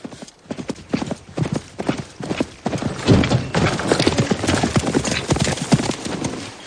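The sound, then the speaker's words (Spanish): Hoofbeats of a horse galloping up in a Western film scene, a rapid clip-clop that starts lighter and grows heavier and louder partway through, then keeps drumming on. “Charlie Prince aguarda unos segundos a que se detenga el vehículo y se aproxima al galope.”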